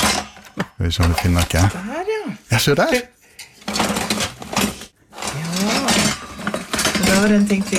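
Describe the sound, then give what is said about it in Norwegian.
Metal kitchen utensils clatter and clink as someone rummages through a very large kitchen drawer, rattling in bursts while people talk over and between the noise. “Så tok jeg da turen ut på kjøkkenet og åpnet denne kjøkkenskuffen. Dette er lyden av deg på kjøkkenet.”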